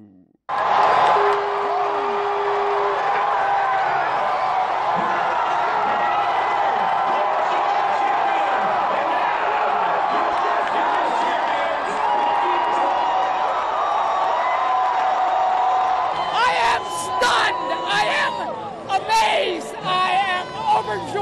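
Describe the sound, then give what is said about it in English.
Crowd of baseball fans at a watch party at Nationals Park cheering the Washington Nationals' World Series win over the Houston Astros, a continuous loud roar of voices with whoops and shouts, turning into sharper, choppier bursts of cheering near the end. “where baseball fans erupted in cheers early Thursday morning to celebrate the city's first World Series title in 95 years after the Nationals defeated the Houston Astros 6-2.”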